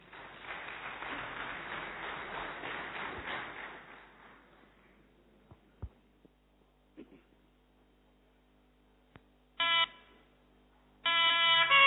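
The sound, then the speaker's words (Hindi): An audience claps at a devotional gathering: a dense, steady patter of applause fades away over about four seconds. Near silence follows, with a few faint clicks and two short, bright electronic tones. “Thank you Nitin, जोरदार तालियां।”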